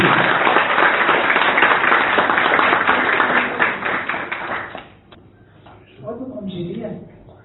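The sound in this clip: An audience at an awards ceremony in Nikšić applauds a recipient, with dense, even clapping that carries on for several seconds before fading out. After a short pause, a person begins speaking.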